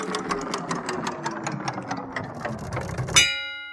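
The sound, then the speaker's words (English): An online random picker wheel being spun to choose a film: many rapid, evenly spaced ticks, then a bright ringing chime that fades out. “we've just put them into a random wheel to randomly pick films for us. So we don't actually know what we're going to watch until we spin the wheel, which I'm going to do now.”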